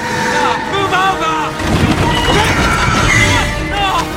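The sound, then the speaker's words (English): A horse-drawn carriage crashes past a car, a Rolls-Royce. Horses whinny repeatedly at first, then a loud, dense clatter and rumble of wheels and hooves takes over. “Jonathan gawks and dives across his car's hood as Han's carriage crashes past.”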